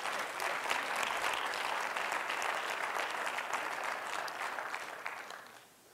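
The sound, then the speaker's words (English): Sustained applause from a church audience during a sermon, a dense, steady crackle of many hands clapping that holds loudly for about five seconds and then fades away at the end, with no voices over it. “Clap, pastors, anyhow. Just go ahead and clap.”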